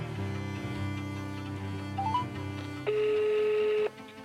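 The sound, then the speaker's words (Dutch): A telephone rings as a call is placed: a few short rising beeps lead into one steady, bright ring tone lasting about a second, over a low, sustained background hum. “Ze belt als eerste met Isis, een van de onderzoekers van Bureau de Pain.”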